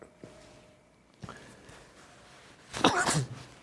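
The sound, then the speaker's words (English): A single sneeze breaks through faint background hiss during live talk, a loud, sharp burst of breath near the end after a few softer clicks and rustles. “I've talked about before the horribleness of feeling like you have to sneeze while you're live, but it's just the nature of being live, so you got zombie sneeze.”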